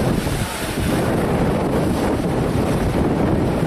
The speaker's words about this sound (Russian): Вы видите, друзья, да, разбушевалось синее море.